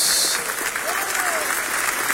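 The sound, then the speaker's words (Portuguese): Church audience applause: a brief burst of dense, steady clapping from the assembled worshippers, with a voice rising over the clapping. “Deus abençoe a todos vocês, um grande aplauso para Jesus.”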